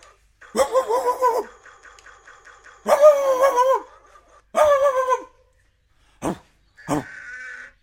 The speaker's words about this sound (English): That's my dog.